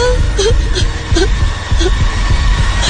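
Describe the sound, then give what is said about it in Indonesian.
A person cries, with soft wavering whimpers and sobs rising over a low, rhythmic throbbing pulse that continues throughout. “Aku terus menangis dan memejamkan mata.”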